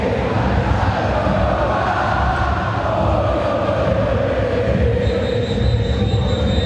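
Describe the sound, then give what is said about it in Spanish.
Stadium crowd of nervous Boca Juniors fans urging their team on, a dense, continuous roar of many voices that never lets up, with a low, steady chant-like hum running through it. “Escuchen al público de Boca que está nervioso. Que le está pidiendo el equipo que se mueva.”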